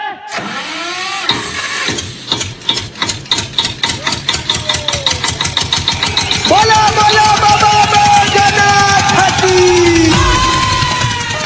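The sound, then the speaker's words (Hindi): Generator engine starting and running: slow cranking pulses quicken into rapid firing, then the engine catches and settles into a loud, steady running drone. “A generator चालू कर रहे।”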